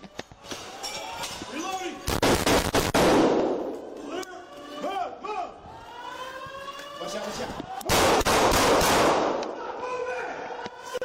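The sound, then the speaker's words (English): Gunfire from a person shooting at police out of a second-floor window: two bursts of several sharp, rapid shots, with wailing siren-like tones running between and around them. “The shots are getting louder as they get closer. That's of the person shooting at cops out the window of the second floor.”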